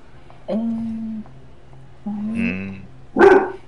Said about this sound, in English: Oh, Jesus, that's a big dog. Woof.